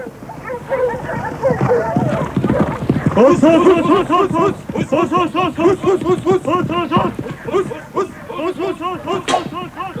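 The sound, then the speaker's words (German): Hunting dogs chasing a wild boar through a forest, with many loud, overlapping barks, yelps and whines in a quick, uneven rhythm that continues through the whole stretch. “streiften an einem heißen, sonnigen Tag Jäger zu Pferde durch einen Wald, wo heute die Stadt Lüneburg liegt, und hetzten mit ihren Hunden ein Wildschwein.”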